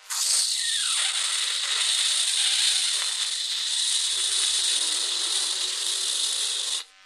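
Aerosol spray hisses from a large can aimed at someone's head: one steady, loud, continuous hiss lasting about six and a half seconds, then cutting off abruptly.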